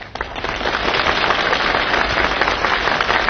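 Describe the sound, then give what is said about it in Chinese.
Thunderous audience applause during a stage comedy sketch, dense steady clapping that fills the whole clip at an even, loud level with no voices. “你听管仲的掌声，掌声如雷呀”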